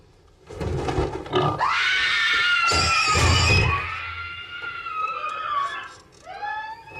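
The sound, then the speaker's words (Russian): A pig lets out loud, high-pitched squeals in several drawn-out bursts, with rough, noisy grunting beneath the louder cries. “Это свинья.”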